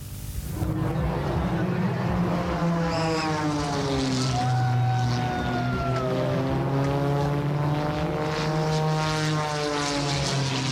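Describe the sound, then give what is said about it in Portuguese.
Propeller aerobatic airplanes race at high speed over the Douro River between the Arrábida and Dom Luís bridges, a loud continuous engine drone with a strong low hum and harmonic tones that bend downward in pitch as they pass. “Entre a Ponte da Arrábida e a Ponte Dom Luís, os aviões passaram a grande velocidade e prendem a atenção de quem acompanha o espetáculo.”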